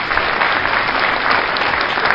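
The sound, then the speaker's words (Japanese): A short burst of audience applause, dense and even throughout, with no voices standing out above the clapping. “おー、なんとの拍手。”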